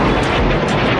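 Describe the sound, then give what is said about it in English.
Rockets and drones fired at Israel from Lebanon by an armed group make a loud, steady roar that holds unbroken at one level throughout. “Rockets and drones fired at Israel from Lebanon by the armed group Hezbollah.”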